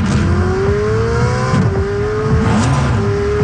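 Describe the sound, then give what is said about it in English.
A gas-powered Ferrari sports car engine roars loudly and continuously, its pitch climbing through repeated revs that each rise steadily before dropping back and pulling up again. “One of Ferrari's gas-powered sports cars sounds like this.”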